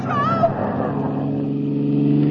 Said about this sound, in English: Runaway truck behind me, loaded with nitro. Pull over!